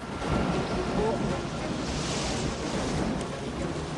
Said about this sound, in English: We're getting slammed in here, guys. You better hang back. Rain is pelting down.